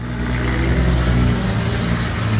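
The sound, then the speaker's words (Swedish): Racing cars speed around a motor racing track with a loud, steady engine drone and a slight waver in pitch throughout. “Det här är också trafik i Östergötland just nu. Ja. Fast på Mantorp Park. Och det här var ganska lugnt, Hanna, ska du veta. Där går det undan”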